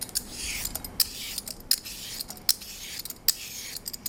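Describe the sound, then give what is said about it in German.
Rhythmic scraping strokes of a vegetable peeler shaving cucumber flesh into a bowl, each steady pass ending in a crisp metallic click, repeated many times at an even pace. “Und nach dem Schälen, wenn ich mit meinem Sparschäler schäle, tue ich einfach weiter mit genau derselben Bewegung und tue mein Fruchtfleisch in eine Schüssel hobeln.”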